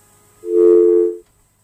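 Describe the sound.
A single steady telephone tone after a caller's phone line dropped: a bright, buzzy beep lasting under a second, then silence.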